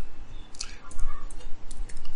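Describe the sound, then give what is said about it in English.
Someone types on a computer keyboard, producing a fairly quiet, rapid and irregular run of many light clicks with no clear rhythm. “I'm gonna type it right here. So I don't forget.”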